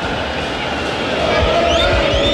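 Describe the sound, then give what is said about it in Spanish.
Stadium crowd at the Nacional chanting against the club directors during a football match, a dense, steady roar of many voices that grows slightly louder in the second half. “Escuchemos al público. El cantito contra los dirigentes,”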